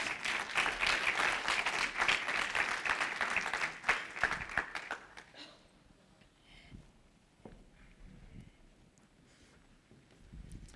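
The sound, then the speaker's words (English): Audience applause welcoming two people onto the stage at a morning gathering: a dense, steady clatter of many clapping hands for about five seconds, then it quickly thins into a quieter room with only scattered small noises. “And so if you would help me welcome Manuel and Anessa to the stage this morning, let's give them a hand.”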